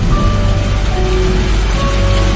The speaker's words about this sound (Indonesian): Yang kulihat dari teras itu hanyalah derasnya hujan